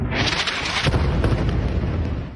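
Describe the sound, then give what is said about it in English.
Tank and artillery fire shelling Gaza at night, a dense, continuous heavy rumbling roar that stays loud throughout with a sharper crack partway through. “The Israeli military pummeling Gaza with tank and artillery fire, lighting up the night sky.”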